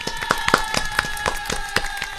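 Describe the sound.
Rhythmic claps from a small group see off a guest at the close of a Spanish-language talk program, landing in a steady, even pulse of roughly four sharp claps per second throughout.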